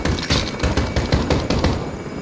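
Gunfire in a video game firefight: rapid, dense automatic shooting fills the whole moment as a loud, continuous crackle of overlapping bursts.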